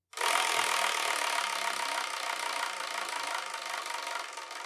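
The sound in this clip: A prize wheel spins with a loud, steady rattling whir that runs unbroken for about four and a half seconds before easing slightly. No voices are heard.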